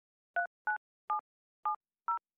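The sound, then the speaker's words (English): Five short touch-tone beeps ring out as a telephone is dialed to call a hairdresser, each a brief, clear dual-pitched tone, separated by slightly uneven gaps, with no other sound. “The next day, Mum rang Luke, the hairdresser.”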